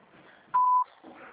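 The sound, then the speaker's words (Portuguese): A voicemail beep sounds before a message is recorded: one clear, steady, mid-high tone, brief and loud, set between faint murmuring noise on the phone line. “Sua chamada está sendo encaminhada para a caixa de mensagem. Deixará sujeita a cobrança após o sinal. Após o sinal, grave sua mensagem.”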